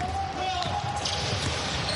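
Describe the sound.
A basketball bounces on court during a professional basketball match, with low repeated thuds under a steady crowd roar and a commentator talking.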